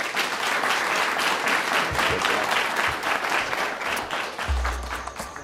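Audience applause at the Commonwealth Club: a dense, steady wash of many hands clapping, loud and sustained, beginning to thin out near the end.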